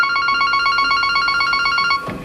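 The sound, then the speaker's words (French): A telephone rings in a city-centre estate agency with a rapid, pulsing electronic trill that repeats steadily and loudly before cutting off near the end. “Dans cette agence immobilière du centre-ville, le téléphone ne cesse de sonner.”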